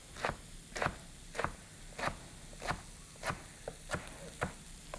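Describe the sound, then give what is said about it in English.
A knife cuts vegetables into very fine slivers, about an eighth to a quarter inch, on a cutting board. Nine crisp, evenly spaced chops land in a steady rhythm under quiet background hiss. “I'm going to cut them as fine as I can. So I'm going to make little tiny slivers.”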